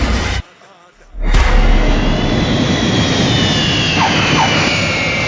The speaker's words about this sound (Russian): Самолет приземлился, сильно ударившись о полосу.